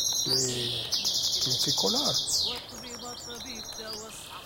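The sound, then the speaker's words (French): A songbird bred from local birds crossed with a female serin sings rapid, high twittering trills. It opens loud with a long buzzy trill, then moves into softer, quicker chirping phrases. “Et ça, c'est un croisement entre oiseaux de la région avec une serine. Finalement, c'est des chanteurs, c'est des très bons chanteurs.”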